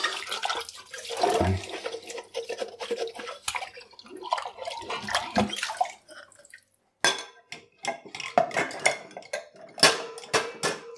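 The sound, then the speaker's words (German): Dishes being washed by hand under running water: a glass, a lid and other crockery clatter and clink amid splashing and dripping water, with a brief near-quiet lull partway through. “Ich glaube, dann muss ich mich auch erstmal ganz abtrocknen machen, bevor ich hier weiter abwaschen kann.”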